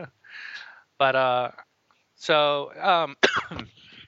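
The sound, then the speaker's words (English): Coughing into a microphone: a few harsh, partly voiced coughs and throat sounds, moderately loud and separated by short pauses. “nice as I cough into the microphone.”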